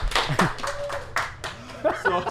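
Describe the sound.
Scattered hand clapping from an audience, a few separate claps at an irregular pace, with a voice talking over them.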